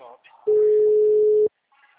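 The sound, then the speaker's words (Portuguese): A telephone sounds a single steady, level electronic tone lasting about a second, loud and unbroken, with faint voices before and after it. “Pera aí rapidinho, deixa eu só atender meu amigo.”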